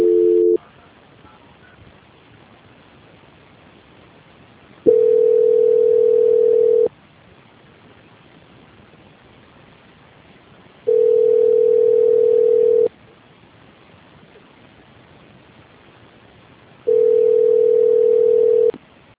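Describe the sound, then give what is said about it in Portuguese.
Telephone ringback heard while a call is being transferred: a brief tone at the start, then three steady beeps of about two seconds each, repeating roughly every six seconds with quiet gaps between. “Só um minutinho que eu vou transferir você, tá? Tá ok. Transferência.”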